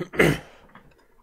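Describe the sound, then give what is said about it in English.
A single throat clearing from someone with something caught in the throat: one harsh, rasping burst near the start that quickly trails off into quiet. “Because for some reason, got something in my damn throat again.”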